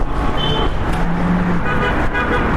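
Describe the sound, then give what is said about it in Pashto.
Steady road traffic roars past on the Kabul–Kandahar highway beside a small village market near Ghazni, with a broad, continuous engine and tyre rush and a brief horn toot over it. “د کابل کندهار پر لوی لار آباد دروځي کلی، دلته یو وړوکی بازار دی چې دغه کلی خلک په کې د اړتیا وړ توکي اخلي او د لوی لارې موټران هم تیریږي.”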